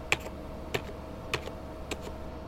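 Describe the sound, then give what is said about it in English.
Typing on a computer keyboard as someone enters a password: four sharp, evenly spaced keystrokes stand alone with no voices. “He types in Huey.”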